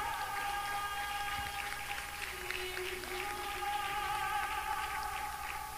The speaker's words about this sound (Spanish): Le da palmas a Dios, hombre.